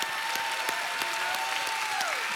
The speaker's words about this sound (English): Let's give the Lord a hand.